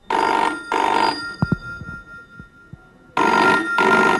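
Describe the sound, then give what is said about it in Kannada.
A telephone rings in two quick loud bursts, then pauses with a few faint clicks before a third ring starts. The rings are loud and bright. “ಅದ ನೀನೇ ಎಡು ಮಾಚು. ಇದು guarantee ಅವಂಡದೇ phone. ನೀನೇ ಎಡು”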